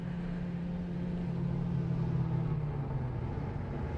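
A car approaches on the road as a steady, low engine rumble and hum. It swells slightly toward the middle, and its droning tone sinks a little in pitch near the end, with no voices.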